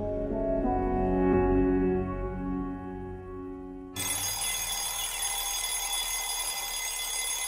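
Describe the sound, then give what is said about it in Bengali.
An alarm clock rings at dawn. A tonal, chiming ring sounds first, then it switches abruptly to a harsh, continuous metallic bell that keeps going, moderately loud and without voices. “পাণ্ডাদের ঘরে গভীর ঘুমে রাত কাটিয়ে ভোর পাঁচটার মধ্যে alarm বাজিয়ে উঠে”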